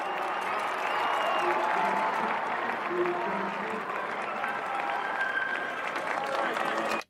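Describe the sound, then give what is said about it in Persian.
A baseball crowd applauds and cheers as a player leaves the field, with sustained dense clapping and crowd noise throughout that cuts off sharply at the end. “وای با اینکه داره از زمین خارج میشه همه تشویقش میکنه.”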